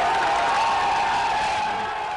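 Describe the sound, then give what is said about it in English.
Crowd cheering at Aung San Suu Kyi's release from house arrest in Rangoon, as she climbed steps behind the gate of her compound. The joyful roar is steady and loud throughout. “The diminutive 65-year-old democracy campaigner clambered up steps behind the gate of her compound, and the crowd went mad with joy.”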